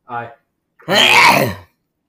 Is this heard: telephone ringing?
no

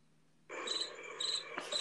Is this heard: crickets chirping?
yes

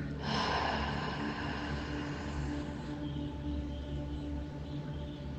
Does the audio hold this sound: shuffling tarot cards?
no

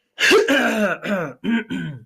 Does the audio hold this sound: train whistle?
no

